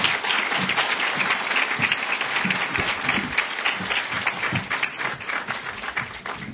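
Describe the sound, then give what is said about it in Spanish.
Audience applause welcoming a speaker at a formal accountability-report ceremony of a cultural institution in Ecuador: continuous, dense clapping for several seconds, staying level with small swells. “a quien recibimos con un fuerte aplauso,”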